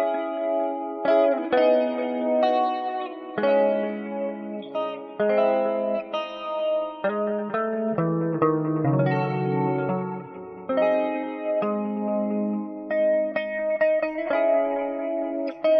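An electric guitar plays a melodic arrangement alone, using chorus, distortion and reverb effects. Sustained, shimmering notes and chords shift steadily in pitch at an even loudness.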